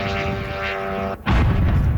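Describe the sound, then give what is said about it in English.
A drone strikes an apartment building in Kyiv: a steady droning engine whine with tonal harmonics, a brief dip, then a sudden loud explosive blast that becomes a sustained roaring rumble. “That's one drone hitting an apartment building.”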